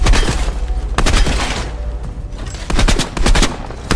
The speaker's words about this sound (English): Shoot the targets. Firing sequence engaged.